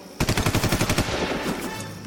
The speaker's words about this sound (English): Lieutenant, stay where you are. We will return fire.